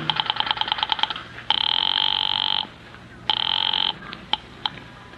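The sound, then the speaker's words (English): A telephone rings on the line after a number is dialed from an office switchboard. A fast pulsing burst is followed by two long, loud, steady ring tones and then a few brief clicks, with no voices. “I went out to the switchboard and dialed the courthouse number.”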